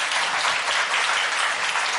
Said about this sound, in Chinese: 感谢上帝，归荣给上帝，大家鼓掌。